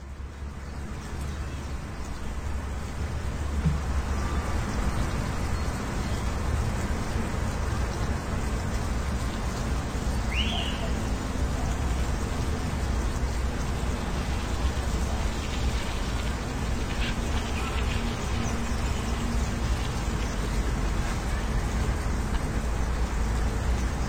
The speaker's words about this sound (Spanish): nos resultaba curioso escuchar el paisaje sonoro de una orilla del río y que, como un murmullo al fondo, se escuchaba la ciudad, y la ciudad eran coches.